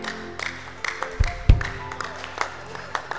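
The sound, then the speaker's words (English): A church audience claps in a steady rhythmic beat during a Wednesday teaching service, the sharp claps repeating at an even pace with a few heavier low thumps. “Clap for Jesus.”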